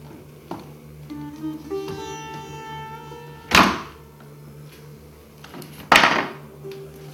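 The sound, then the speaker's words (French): A door being set back onto its lift-off pin hinges: two loud, solid thudding knocks a couple of seconds apart follow a softer earlier knock, with faint ringing and light handling noise between them. “Et voilà, la porte est remise.”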